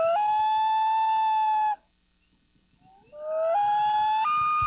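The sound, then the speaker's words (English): A loon call plays as a sound effect in a bingo game. A long, mournful wailing tone holds steady, then stops. After a pause of silence, a second wail climbs in steps to a higher pitch, heard alone. “you will hear the call of our lucky loon, Ernie, who sounds like this.”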